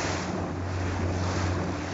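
A boat motors out to sea off the bay of Calvi with a steady, low engine drone. Rushing wind and water noise run at a constant level throughout.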